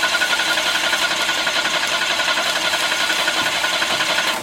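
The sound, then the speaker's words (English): A rattling, jackhammer-like mechanical drone from a song generator machine that won't start when its start button is pressed. It is loud and steady throughout, with a fast chattering pulse and no talk over it. “the song generator machine won't fire up when I hit the start button. Here, watch.”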